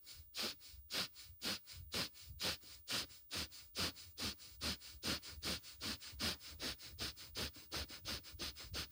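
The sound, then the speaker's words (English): Rapid breathing in and out through the nostrils during a breathing exercise, heard as many quick, even sniffs in a fast, steady rhythm, fairly loud and with no talking. “Keep fluttering the diaphragm with every inhale and exhale faster and faster.”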